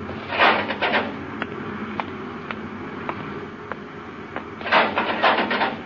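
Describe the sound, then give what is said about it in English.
A spaceship's inner hatch opens as a sci-fi radio drama effect: a hissing whoosh, a row of evenly spaced sharp ticks, then another hissing surge at the end. “Open the inner hatch, Happy.”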